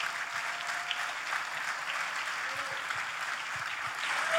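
An audience at a blues festival applauds as a band member is introduced, a steady, moderately loud patter of many hands that lasts throughout.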